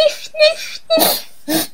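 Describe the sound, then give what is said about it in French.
A voice imitates sniffling before crying, making a few short, breathy sniffs and whimpering, tearful tones in separate bursts. “Et quand on renifle, parce qu'on a envie de pleurer, une petite larme arrive, qu'est-ce qu'on fait?”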